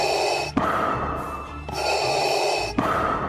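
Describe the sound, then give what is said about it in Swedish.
Mechanical respirator breathing from a film character: loud, rasping, hissing breaths alternating between drawn-in and pushed-out phases, each cycle steady and broad, with no voices. “med tanke på att Ben Burtt även var den som designade rösten för R2-D2, ljudet av lightsabers och Darth Vaders ikoniska andning”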